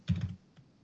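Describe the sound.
A computer keyboard is used to type a search, with a quick burst of several close keystrokes followed by one lone, softer key click, fairly quiet and without talk.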